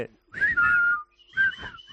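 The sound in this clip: Whistling by several people, with clear mid-high whistled notes in a few short phrases: one longer held phrase followed by briefer ones after a pause, over faint low background sound.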